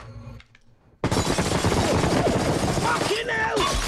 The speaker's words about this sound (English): She riddles the hotel room with bullets.